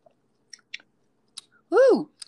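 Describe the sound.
Soft chewing while tasting a tangy, lemony, rosy pink food made with lemon juice and grenadine. A few faint, brief mouth clicks are spaced apart, followed by a short hummed tone that rises and falls.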